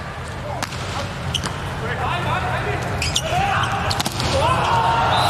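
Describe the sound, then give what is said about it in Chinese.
A volleyball is struck on a serve during a match, giving sharp slapping hits over constant crowd noise while a commentator talks. “换上来的巴耶拉姆的发球”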